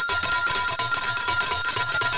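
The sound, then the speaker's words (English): A bell rings without a break, bright and high-pitched, with a fast, steady rattling pulse under the tone. It sounds alone, with no talk. “And I must ring the bell.”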